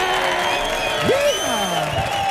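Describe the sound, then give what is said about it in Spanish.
A live audience in an auditorium cheers and applauds at a stage show. A continuous bed of clapping and crowd noise carries one whooping voice that glides up, holds, then slides back down. “Que está bien que lo escuche, pero mira lo que está disfrutando este público que suena de esta manera tan brutal.”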